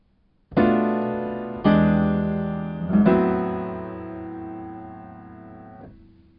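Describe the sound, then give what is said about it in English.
A minor cadence of three sustained chords moves from a half-diminished chord to an altered dominant seventh and then resolves. Each chord is struck cleanly and rings down before the next, and the last one fades away. “Could be converted to a minor cadence, which sounds like this.”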